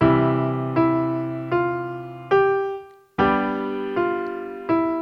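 Piano melody of seven struck notes, each sounded with a G major chord in the left hand, in a slow, even rhythm. The fourth chord rings on and fades out before the next notes come in.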